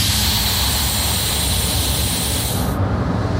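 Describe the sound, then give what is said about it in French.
The small train of La Mure brakes hard as it arrives at the station: a loud, steady rushing hiss over a low roar that continues throughout, with the highest part of the hiss cutting off shortly before the end. “Clément est en train de freiner fort.”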